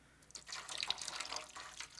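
Hot water is poured for soaking sore, swollen feet, making a faint, soft splashing trickle with light dripping.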